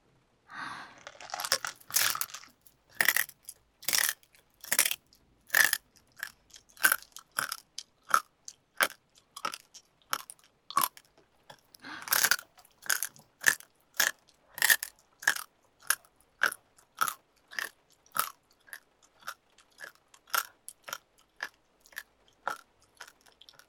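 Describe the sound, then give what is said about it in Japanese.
Messy eating with loud crunching bites and wet chewing, many sharp crunches in a steady, irregular rhythm heard alone, with short pauses between mouthfuls. “こんなはしたない食べ方、お行儀悪いって怒られちゃう。”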